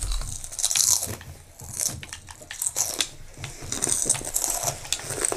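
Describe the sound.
Cookies being eaten, with crisp, crunching bites and chews in irregular bursts, fairly loud and with no voices.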